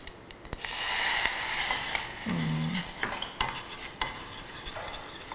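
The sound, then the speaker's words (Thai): Stirring of a sauce simmering in a pan with added water: continuous scraping and sloshing of the spoon over a steady sizzle, with a few light metallic clinks and no talking. “เราเคี่ยวด้วยกันก่อนสักพักหนึ่งนะครับ นึกถึงปลาหมึกผัดไข่เค็มเลยค่ะ ต้องเติมน้ำนิดนึงนะครับเดี๋ยวขอใส่น้ำเพิ่ม”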